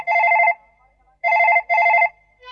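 A house telephone rings at a well-known performer's home with loud, trilling electronic bursts: one ring, a pause, then a close double ring, and another ring starts just at the end.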